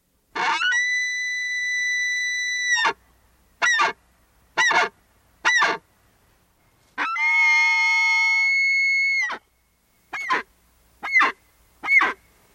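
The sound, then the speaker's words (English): A bull elk bugling during the rut: two long, high, whistling bugles, each followed by three short, sharp yelping calls, separated by silence, with no talk. “That is the call of a bull elk. That is when bull elk mate, they go into rut, and they use this call to announce that they are there.”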